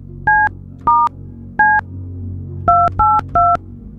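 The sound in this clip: Six touch-tone beeps of a telephone number being dialed: steady two-tone keypad chirps, three spaced apart, then three in a quicker group, heard alone over a faint low hum.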